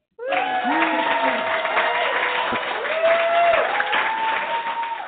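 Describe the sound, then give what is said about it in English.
Cheering and applause break out at once to welcome action adventure author Ernie Dempsey, continuous loud clapping topped by whoops and voices sliding up and down, holding steady to the end. “So if you'd like to bring him on, we'll get a cheer going.”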